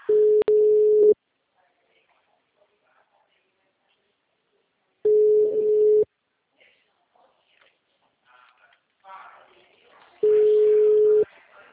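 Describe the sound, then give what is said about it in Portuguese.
After a dropped phone call, a busy tone sounds as three steady mid-pitched beeps, each about one second long and about five seconds apart. Faint rustling fills the gaps between them. “A ligação caiu, Merli. Caiu.”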